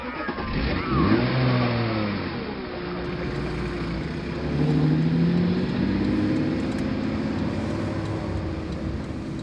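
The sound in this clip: A car pulls away, its engine revving up with a climbing pitch, easing off, then climbing again into a steady, moderately loud drone.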